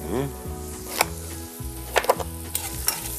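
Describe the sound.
Food sizzles in a pan of half oil, half butter: a quiet, steady frying hiss broken by a few sharp clattering bursts of stirring.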